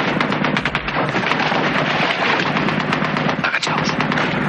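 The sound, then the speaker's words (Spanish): Heavy gunfire fills a battle scene from the 1986 war film El Sargento de Hierro as soldiers shoot: loud, rapid machine-gun bursts and rifle shots run continuously throughout with hardly a pause. “Desde el otro lado, más soldados empiezan a dispararles.”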